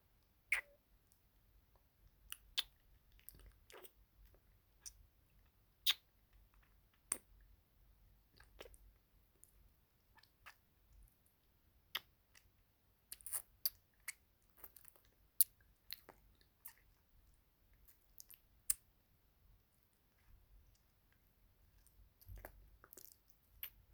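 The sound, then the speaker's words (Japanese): Licking salt off someone's face in an ASMR roleplay: many faint, wet mouth clicks and smacks, irregular and sparse, scattered across a quiet background with no talking. “あ、お顔に私のお塩が。失礼します。舐めさせていただきますね。”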